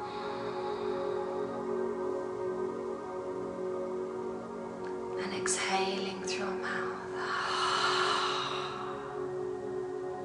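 A slow breath is drawn in through the nose and released through the mouth during a guided relaxation exercise. A soft, airy exhale of about a second follows a few faint clicks, over steady background music.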